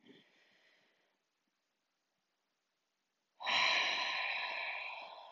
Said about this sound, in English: take the biggest breath you've taken all day. Take it with me now. Inhale.